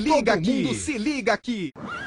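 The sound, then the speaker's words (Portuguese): A horse neighs in a wavering, warbling whinny, with a few bursts separated by short gaps over about two seconds. “o que é aquilo ali? Aquilo é um cavalo.”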